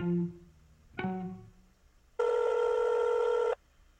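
A telephone call is placed: two short dialing tones come first, then a single sustained ringing tone that stops abruptly, with quiet gaps between the sounds.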